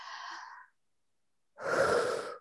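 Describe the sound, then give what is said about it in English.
A deep breath drawn in: a short soft breath comes first, then after a pause a longer, louder airy inhale. “I just want you to take a really deep breath with me.”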